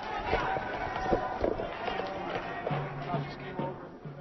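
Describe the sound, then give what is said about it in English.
Running footsteps of a crowd fleeing police tear gas in a downtown Oakland plaza, a quick, irregular patter of many steps with voices in the background. “The police have now shown up. They have fired tear gas into the plaza. Many people are now running away, including myself.”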